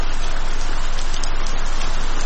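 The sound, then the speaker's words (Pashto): Heavy rain pouring down, a dense, even rushing hiss that holds steady throughout, loud and unbroken, with no voices. “باران تیز شو. داسې شرشوری شو لکه ناوې چې له اسمان را خوشي شي.”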